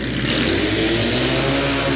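A 750 Triumph twin motorcycle races on a flat track, its engine giving a loud, steady roar that holds throughout without a break.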